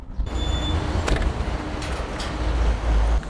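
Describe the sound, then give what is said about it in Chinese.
A car being driven gives a steady low rumble of engine and road noise, a continuous drone with a few brief knocks and clicks over it, and no voices. “开车去接他回来”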